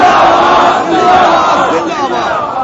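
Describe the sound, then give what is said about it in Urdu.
A large crowd chants religious slogans in unison, a loud, sustained roar of many voices that swells and dips slightly without a break. “نعرے نعرے غوثیہ تاج دار ختم نبوت”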